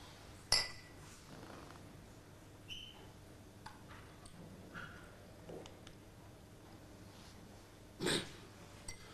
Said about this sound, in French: Allez, trinquons-y.